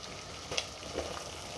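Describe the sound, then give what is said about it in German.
Water at a rolling boil in an uncovered pot on a stove, before salt goes in: a steady, faint bubbling hiss that holds evenly throughout, with no voices. “das Wasser kocht schon schön. Nehme ich jetzt gleich einmal den Deckel ab. Also es kocht wallend, wie man so schön sagt.”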